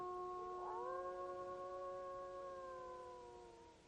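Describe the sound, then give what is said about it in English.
A wolf howls in one long, faint, tonal call. Its pitch rises briefly at the start, then holds steady and fades out toward the end. “there's a wolf howling!”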